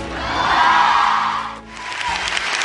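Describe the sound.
Applause from an audience at Wellesley welcoming a speaker: a dense, steady wash of clapping that dips briefly midway and then swells back up.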